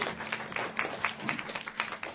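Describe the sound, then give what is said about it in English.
Faint audience applause at a live show, a thin patter of clapping hands over a low steady hum. “Okay, let's give a round of applause.”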